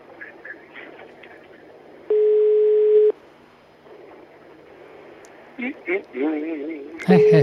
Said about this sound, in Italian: Squilla e non risponde.